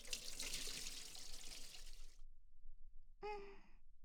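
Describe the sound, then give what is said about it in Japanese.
Hot water is poured over a person during washing. A steady, splashing pour lasts about two seconds and then stops, and after a short pause a brief voiced gasp follows. “お湯をかけるから、目をつむって。”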